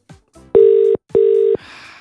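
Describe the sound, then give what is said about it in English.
An outgoing phone call rings out unanswered: two even, buzzy ringing tones in quick succession, each lasting under half a second, after a couple of faint clicks, with soft hiss trailing at the end. “But we'll give her a ring anyway.”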